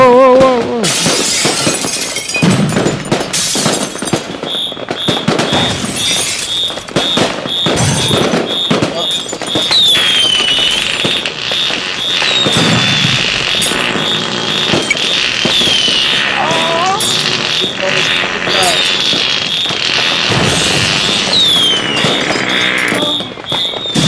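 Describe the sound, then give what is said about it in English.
Fireworks explode in a dense, loud barrage of crackling bangs and whistling rockets that lasts almost the whole clip, with a pulsing high tone running through it. “Hey, look, I found a whole bunch of fireworks we forgot about in the bathroom.”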